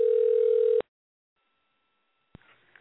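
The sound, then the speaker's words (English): A dial tone plays as a telephone is dialed from a computer. The loud, steady hum cuts off abruptly after less than a second, then silence falls before a faint click and soft rustling noise. “So strange to dial a phone using your computer.”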